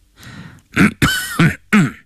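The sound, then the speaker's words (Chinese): Harsh throat clearing and coughing, a few rough, voiced bursts in quick succession with brief gaps between them, fairly loud and heard on their own without talk. “邓廷桢咳嗽了一声”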